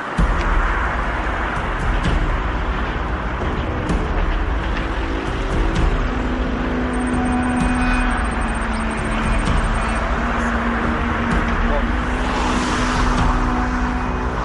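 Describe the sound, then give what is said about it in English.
A car drives across a Palestinian valley beneath hilltop Jewish settlements south of Jerusalem, its engine and road noise forming a steady, loud rumble that continues unbroken for the whole stretch, with no one talking. “now we are driving over the Palestinian Valley”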